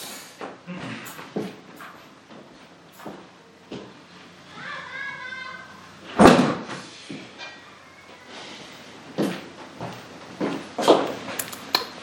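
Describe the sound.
A window being shut against outside noise makes a brief scraping slide followed by one firm, loud knock, set among quieter background sounds.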